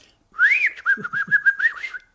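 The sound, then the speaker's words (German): A person whistles in imitation of a bird down a telephone line: a bright warbling phrase that swoops up at the start, then wavers through a quick run of short trills before stopping. “Ich höre doch bei Ihnen einen Vogel.”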